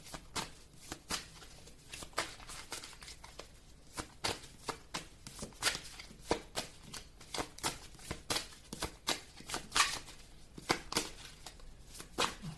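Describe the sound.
Playing cards shuffled and drawn: a fairly faint, rapid run of many crisp flicks and riffles, with no talk.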